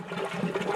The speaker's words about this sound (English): That's the sound of compost tea brewing.